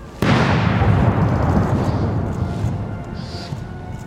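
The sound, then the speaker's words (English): An artillery gun salute fired from Hyde Park: a single sudden, loud boom strikes near the start, then rolls into a long, rumbling decay that slowly fades. “Gun salutes were fired each minute from Hyde Park.”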